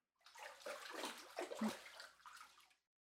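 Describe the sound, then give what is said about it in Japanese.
Water sloshes and pours as someone rinses their body in a bath. The splashing is faint, comes in a few soft surges that swell and fade, and ends in quiet. “体流して上がりましょう。”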